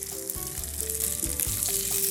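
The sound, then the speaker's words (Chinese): Food dry-fries in a pan with very little oil, giving a steady, dense sizzle of crackles and hiss throughout, with a few faint clicks from the pan and no talking. “就让它这样子干煎，主要是那个恰恰的感觉啦”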